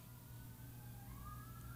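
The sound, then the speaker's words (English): Emergency vehicle sirens wail outside on Reserve Street, a faint wavering tone that dips and then climbs again over a constant low rumble. “Sorry, there's sirens going off in the background, so not sure what's going on out there on Reserve Street.”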